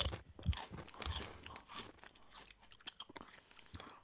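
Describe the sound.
Crunching and chewing of tiny, thin mystery-flavor pretzel snacks, with many brittle, faint bites and crackles in an uneven rhythm separated by brief pauses.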